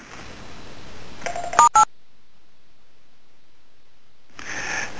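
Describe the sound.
Two telephone keypad tones, star then six, pressed on a phone: two short, sharp beeps in quick succession over faint hiss. Near-silence follows, then the background noise returns.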